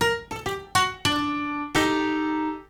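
Layered prepared-piano and plucked-piano samples sound an octave apart in six struck, bell-like notes: a quick run of short plucks, then two longer tones. The final note rings out and slowly decays.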